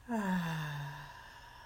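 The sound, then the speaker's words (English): A single deep breath during a guided breathing exercise, drawn out for about a second and voiced slightly like a sigh, followed by quiet. “So we take a breath in. Let's breathe in and out.”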